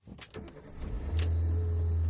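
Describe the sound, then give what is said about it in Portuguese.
Ride-hailing car arriving: a few soft thumps and rustles, then a steady low engine hum that swells and holds to the end, with no talk. “O carro de aplicativo acabou de chegar.”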